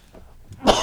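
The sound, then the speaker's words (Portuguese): A single sharp cough from a person suffering from a cough, bursting out loud after a moment of faint breathy sounds and trailing off briefly. “Até porque eu estou impedido agora com uma tosse.”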